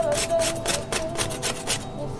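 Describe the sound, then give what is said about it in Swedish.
A knife or scraper rasps the burnt surface off grilled bread for a Venetian baccalà mantecato dish. Many quick, rough strokes come in a steady rhythm, fairly loud and alone. “men det åtgärdar vi lite snyggt genom att bara skrapa bort den brända ytan så här lite grann”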